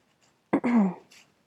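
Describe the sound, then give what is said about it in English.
A single harsh cough from a person with a current cough: one short, throaty burst that trails into a rougher voiced rasp, alone against near silence. “I promptly died because I have a bit of a cough right now.”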